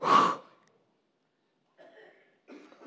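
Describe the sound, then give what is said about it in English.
A group of people exhales forcefully after a deep breath in, in a room. One loud, breathy burst is followed by silence and then faint murmuring. “I just want you to take a deep, big breath in and breathe out really fast. Just do it one more time.”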